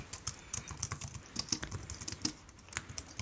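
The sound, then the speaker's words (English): Typing on a computer keyboard: many soft, irregular key clicks tapped out at a quiet level, with short gaps between bursts of keystrokes and no voices. “So let me go ahead and type this one in.”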